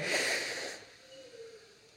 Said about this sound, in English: why don't we all right now together take one big collective deep breath in. Ready? In.